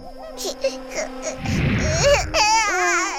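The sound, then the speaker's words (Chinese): A baby cries in loud, wavering wails that swell toward the end, with an adult voice talking beforehand. “乐乐不哭，我再给你冲一瓶。 发生什么了？乐乐怎么哭了？”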